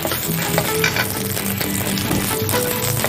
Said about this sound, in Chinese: 先把姜片、蒜片爆香。